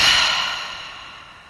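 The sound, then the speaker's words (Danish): A long, deep exhale released after a slow breath in through the nose during a guided relaxation exercise. The breath is a soft, airy rush that starts fairly strong and fades steadily for about a second and a half. “Og lige tage en dyb indånding gennem næsen. Og giv slip på en udånding.”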